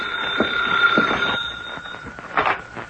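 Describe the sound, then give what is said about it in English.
A telephone rings in an office with a steady, bright electric tone that holds for about two seconds over faint clatter and shuffling, then gives way to a few soft knocks and rustles. “That's the phone ringing in your office”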